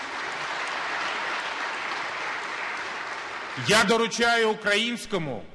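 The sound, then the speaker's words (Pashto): Members of Ukraine's parliament applaud President Poroshenko after a vote ratifying an agreement, a sustained wash of steady clapping that lasts several seconds before a voice begins speaking over its tail. “په داسې وخت کې چې د اوکراین د پارلمان غړي ښاغلي پروشینکو ته چکچکی کوي”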